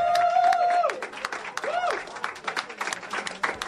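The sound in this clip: Audience applause greets a brewery guest on a live show: a burst of clapping rises under a few sustained tones, then turns into dense, scattered claps that stay fairly loud throughout.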